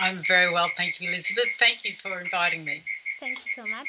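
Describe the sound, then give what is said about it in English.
Crickets chirp on an evening in Brisbane, Australia, a steady high-pitched trill running continuously beneath a person talking in the foreground. “we said we hear a lot of crickets in the background.”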